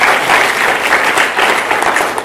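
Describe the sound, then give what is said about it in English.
An audience clapping, loud and steady. The dense applause runs through the whole clip without a break, and no single claps stand out. “Can you all clap for Murimi and such a woman?”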